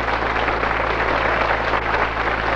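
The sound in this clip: A studio audience applauds to welcome a guest at a television show, a dense, continuous wash of clapping that stays loud and even throughout.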